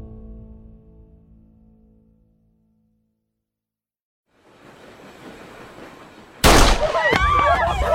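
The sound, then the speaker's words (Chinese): A gunshot in a dramatized audiobook scene among passengers: after a silence and a rising bed of noise, one sudden loud burst cuts in, followed by dense, loud, sustained noise with shrill wavering tones. “枪声响起的瞬间”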